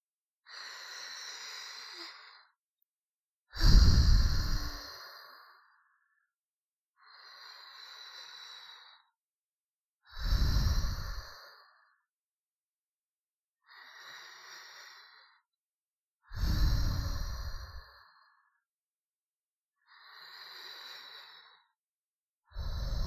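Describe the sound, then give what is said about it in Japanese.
Slow, deep breathing during a guided relaxation exercise: about four cycles of a soft, airy inhale followed by a louder, lower sighing exhale, each breath separated by silence. “さあ、私に合わせて深呼吸してみてください。”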